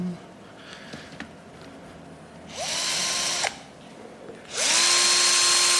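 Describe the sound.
A power drill drives screws in two sustained whirring bursts, its motor pitch climbing as each run starts. A faint knock and low background noise come before them.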